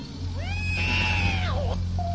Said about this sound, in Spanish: su gata, es la única que le hace compañía.